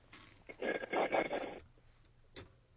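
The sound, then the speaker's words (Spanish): A telephone ringing tone on an outgoing call: one faint, thin, pulsing burst lasting about a second, followed by quiet line hiss and a brief faint click. “no nos cuelgues, ya le estamos marcando.”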